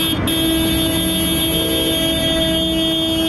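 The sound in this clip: Car horns sound in an opposition protest motorcade calling for the prime minister's resignation. The horns hold steady tones throughout over a constant rumble of vehicle noise.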